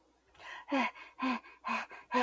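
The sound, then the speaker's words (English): A person pants in a steady run of quick, breathy puffs, with softer and stronger pulses alternating in an even rhythm. The breathing is faint and there is no talk. “Can you pant for me again?”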